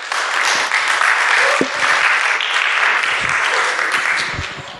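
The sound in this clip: Audience applause at a church service welcomes a speaker coming up to preach: a dense, steady wash of many hands clapping at even loudness, with no voices standing out, easing off slightly at the very end.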